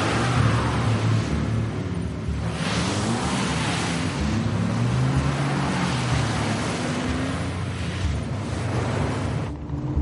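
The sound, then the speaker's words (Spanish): A car engine starts and revs as the car skids away onto a main road, a loud, dense roar of engine and road noise that holds steady throughout with no voices. “Intenta arrancarlo. El coche sale derrapando hacia la carretera principal.”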